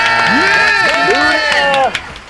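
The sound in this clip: A studio audience cheers loudly with overlapping whoops and shouts that slide up and down in pitch. The cheering stops abruptly near the end, leaving a few faint trailing voices.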